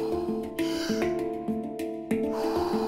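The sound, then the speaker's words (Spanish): Deep breathing during a guided breathing exercise, with slow airy inhales and exhales under steady tonal background music. “Inhala, exhala. Hacia adentro y hacia afuera.”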